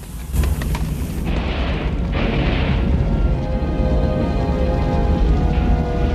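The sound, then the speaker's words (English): An oil tanker explodes with a heavy blast, then a dense, deep roar of flame and rumble holds steady for about six seconds. No voices are heard. “Then an explosion erupts in a ball of orange flame.”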